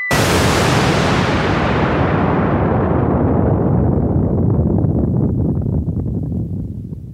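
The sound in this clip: An explosion sound effect: one sudden, loud, full-bodied blast that rolls into a long, heavy rumble, its hiss thinning steadily as it fades over several seconds, with nothing else heard.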